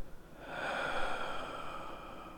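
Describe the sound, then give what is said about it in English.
One slow, deep breath drawn in and let out, heard as a soft, airy rush that swells and then holds steady, alone without talk. “Take a deep breath. And let it out.”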